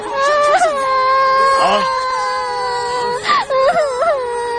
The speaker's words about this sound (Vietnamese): Tại sao người lại khóc?